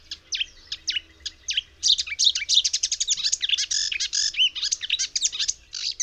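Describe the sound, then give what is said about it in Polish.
Marsh warbler song, a fast run of dozens of high, varied chirping syllables with the species' smacking notes, delivered loud and alone in a dense, unbroken rush over several seconds. “Charakterystyczna dla łozówki jest krótka, szybka sekwencja kilkudziesięciu sylab, w której przewijają się typowe dla tego gatunku cmokające dźwięki.”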